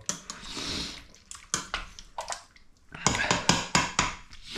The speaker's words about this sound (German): Dann einmal umrühren, die ganze Geschichte.